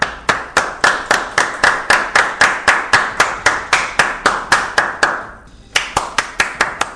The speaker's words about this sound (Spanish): Un aplauso.